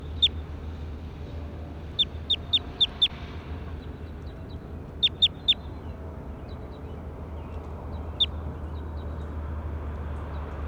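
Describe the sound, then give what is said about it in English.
Sharp, high chirps from a bird, given in a quick run of about five, then a tighter group of three, plus a few single calls and fainter chirps between, over a steady low hum. “That was bird two, now I'm going to go back over to bird five.”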